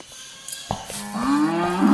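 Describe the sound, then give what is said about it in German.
A cow that has pulled itself loose moos, one low, drawn-out call that swells louder toward the end after a few faint knocks. “Der Rind hat sie losgerissen, ich mach's schnell wieder fest.”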